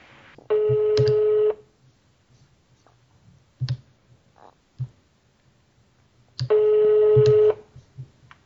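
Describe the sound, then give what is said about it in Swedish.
An outgoing phone call rings out, sounding two steady ringback tones of about one second each, separated by a long pause. A few soft clicks fall in the gap between them. “jag trycker på ring här helt enkelt”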